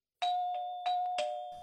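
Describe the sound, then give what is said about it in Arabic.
A doorbell rings with a few bright ding-dong chime strikes, each leaving a sustained ringing tone that carries through to the end. “وفي هذه الأثناء يا أحبائي دق جرس الباب، وذهب نوفل ليفتح الباب.”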